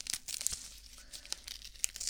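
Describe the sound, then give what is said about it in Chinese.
Medical adhesive tape, the kind stuck on a hand after an injection, tears and crinkles in a few short, crisp bursts, faint and close, with no talking. “打完针之后贴到你手上的胶带。对，现在用的都是这种胶带了，跟之前的不太一样”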